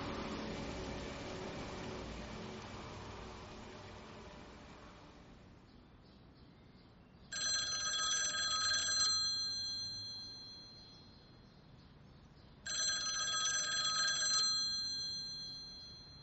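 A telephone rings twice with bright, trilling electronic bursts of about two seconds each, separated by a pause of several seconds and following a broad hiss that fades out.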